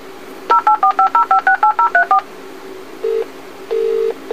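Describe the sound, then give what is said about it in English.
An alarm telephone dials out for assistance: a rapid run of many short, evenly spaced DTMF tone beeps, followed by a few longer steady tones. “Your alarm telephone is dialing for assistance.”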